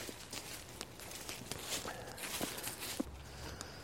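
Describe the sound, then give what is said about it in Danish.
Soft footsteps of people walking out onto a dry meadow by a bog: quiet, irregular steps scuffing over a low steady background. “Skal vi gå en tur ud af og kigge?”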